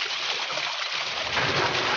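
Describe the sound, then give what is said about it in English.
Water rushes through an opened sluice gate into a pool: a continuous, broad hissing roar with no breaks, its low rumble thickening slightly in the second half. “All right, George, open the sluice gate. Let Esau join the others in the pool.”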